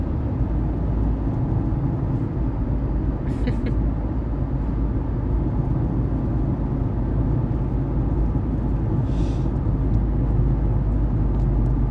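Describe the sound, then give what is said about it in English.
Morning road traffic with many vehicles, heard as a dense, steady low rumble that never lets up, with no single vehicle standing out and no voices. “Why is there so many vehicles?”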